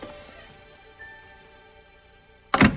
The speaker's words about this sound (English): They watch George leave through a door covered in green striped wallpaper that matches the room.